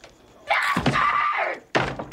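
A door is opened roughly in anger, with a drawn-out scraping, creaking sweep ending in a knock. A second heavy thunk follows shortly after.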